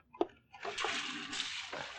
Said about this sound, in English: No, no. Wait till I wash my hands.